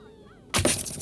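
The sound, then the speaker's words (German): In a radio-play battle scene, a thrown spear slams into a shield during the duel between Paris and Menelaus: a sudden, loud, sharp crack with a rough, splintering tail, following a quiet tonal lead-in. “So berichten wir in der dritten Folge über den gnadenlosen Zweikampf zwischen Paris und Menelaos. Und da, Paris schleudert die Lanze!”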